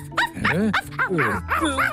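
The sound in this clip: A dog giving a rapid run of short yips and whiny barks, several in a row with uneven rhythm and rising and falling tone.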